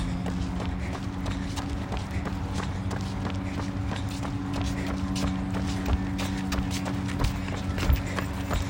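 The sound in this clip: Running footsteps during a fast stride interval in a 30-minute run workout. Many quick, sharp foot strikes fall in a regular rhythm over a constant low hum, at a moderate level throughout.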